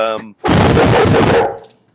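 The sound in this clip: A dog barks in the background: after a brief voice, a single loud, harsh, noisy burst lasts about a second, then fades into quiet.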